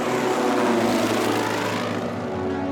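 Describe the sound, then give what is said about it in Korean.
Deep, steady droning of B-29 bomber engines as a formation of heavy propeller bombers sets out in 1945 for a raid on Tokyo. The broad engine roar stays loud and continuous throughout, with no voices. “미군의 최신형 폭격기 B-29 279대는 도쿄로 출발했다.”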